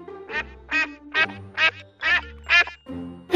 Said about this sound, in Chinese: are one of the smallest ducks in the world. 科尔鸭是世界上最小的鸭子品种之一。 They are originally from the Netherlands.